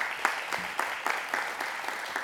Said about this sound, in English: All right, so let's go ahead and give them one more round of applause.